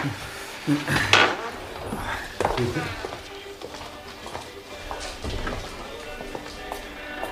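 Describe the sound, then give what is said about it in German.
Pots, dishes and cutlery clatter in a kitchen while noodles cook. A few sharp knocks come early, then give way to softer, continuous rattling and shuffling. “Ich koche gerade.”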